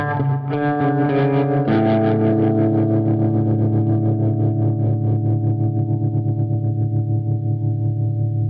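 Electric guitar played through an effects pedal on its tremolo and reverb setting: a few strummed chords ring into a long, steadily pulsing sustain that slowly fades, with no voices.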